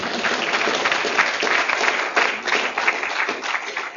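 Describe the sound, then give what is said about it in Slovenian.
An audience applauds a gentleman during a medal ceremony with sustained, full clapping: a thick, even roar of many hands that stays loud and steady, with occasional sharper individual claps standing out. “Mislim, da lahko gospodu zaploskamo, ker mogli odlično, ne?”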